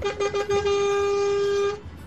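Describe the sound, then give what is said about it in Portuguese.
A car horn honks in a few short toots, then holds one long, steady blare. The bright, buzzy tone stops abruptly, with no talk over it. “E para vocês que estão no trecho, uma buzinadinha aqui para vocês.”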